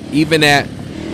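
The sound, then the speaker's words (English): Motorcycles passing outside: a brief, loud burst of revving engine noise lasting about half a second, then dropping away to a low background hum. “they back out on the motorcycles. All right, sorry about that. It's the spring, y'all.”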